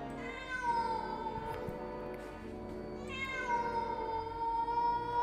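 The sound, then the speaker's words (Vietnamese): Cats yowling eerily in a bush at night: two long, drawn-out wailing cries with a short pause between them, loud and alone against a quiet background. “Vừa mới nói dứt lời thì ở cái bụi cây phía sau vang lên những tiếng mèo kêu đến ghê rợn.”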